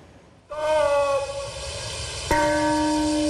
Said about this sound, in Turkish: Çanlar kurbanlar için çaldı.